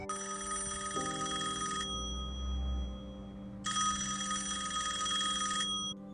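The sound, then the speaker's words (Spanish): A telephone rings in two long bursts separated by a pause, each a bright, trilling electronic ring over a steady low hum. “Tras 48 horas de angustias y desesperación, la familia de Anita recibió la esperada llamada de las autoridades”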